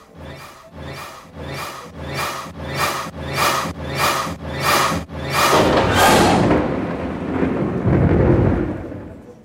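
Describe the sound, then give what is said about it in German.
Thunder rolls through a thunderstorm over Jerusalem. A steady rhythmic pulsing gives way to a long, loud, broad rumble that swells and lingers to the end, with no voices. “das Gewitter, das Jerschalaim gleich zudecken würde”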